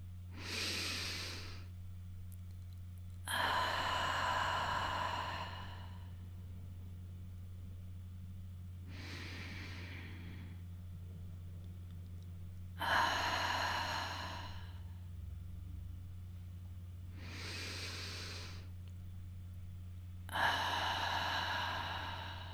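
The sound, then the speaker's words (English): Deep, slow breathing in and out: three full cycles, each a short inhale followed by a longer, airy exhale, steady and unhurried over a constant low hum, with no talking. “Let's breathe in and out a couple of times together.”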